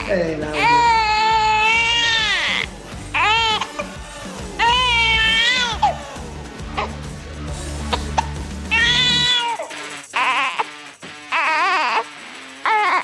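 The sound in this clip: A baby girl cries loudly in repeated drawn-out wails with wavering pitch, while an adult voice talks in between the cries.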